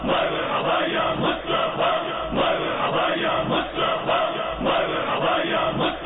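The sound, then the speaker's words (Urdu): A crowd of devotees chants religious slogans in unison while welcoming visiting council members of a religious organisation. The chant is loud and rhythmic, with phrases repeating at a steady pulse and no single voice standing out. “اس پر رکن شورا و عاشقان رسول نے آقا کی آمد کے موقع پر ہاتھوں میں مدنی پرچم اٹھائے فلک شیوام نعرے بلند کیے.”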